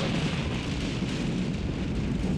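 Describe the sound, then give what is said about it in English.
An explosion heard as a loud, steady roar of dense rumbling noise lasting about two seconds, with no sharp crack at the start. “his megabyte has exploded”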